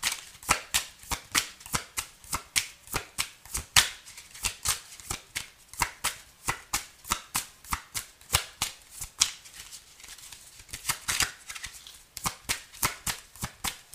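Tarot cards being shuffled in a steady, rhythmic series of many quick riffling strokes, each a crisp papery burst, repeating evenly throughout with no talking.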